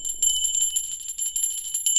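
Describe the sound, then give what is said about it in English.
A bell rings without a break, a high, bright metallic trill that keeps up a fast, rattling pulse from start to finish. “you really did break that other bell, didn't you?”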